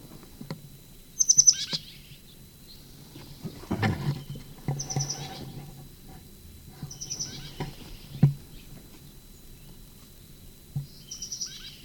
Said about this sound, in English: Sycamore bird. First peep.